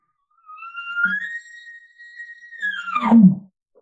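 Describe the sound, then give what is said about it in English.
An elk location bugle imitated on an elk call: a single reedy whistle that climbs, holds high and steady for about two seconds, then drops into a low, rough grunt. The call is loud and alone, with no talk. “And just the location bugle sounds like this.”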